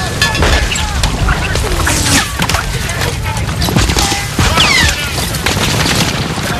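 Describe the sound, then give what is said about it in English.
Dense machine-gun fire and explosions in a beach landing battle scene, with German machine gunners in a fortification firing on GIs in the surf. A continuous loud roar is broken by many sharp cracks and heavy booms. “In the machine gunner's fortification, the Germans mow down GIs on the beach. An explosion shoots up a column of sandy mud.”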